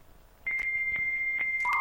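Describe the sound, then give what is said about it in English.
Telephone dialing tones as a dial-up system connects: a steady high beep with a few faint clicks, then a lower tone comes in at the end. “So just bear with us while we fire up the system. It's a dial-up system, Jess, if I'm honest.”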